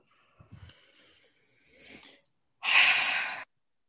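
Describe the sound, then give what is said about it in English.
A deep breath is blown out in one strong, steady exhale lasting nearly a second, after faint, softer breathing sounds. “just take a deep breath. And blow it all the way out.”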